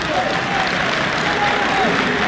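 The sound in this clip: Audience applause at a Beijing crosstalk comedy show, a steady, dense wash of clapping that holds the same level throughout, with voices heard over it.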